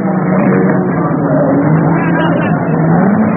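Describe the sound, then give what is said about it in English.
Race cars roar at the Le Mans endurance race in a loud, unbroken engine drone whose pitch rises and falls throughout. The sound is dull and muffled, lacking bright highs. “Listen to the sound of Le Mans. The drama of the Daytona 24 Hour.”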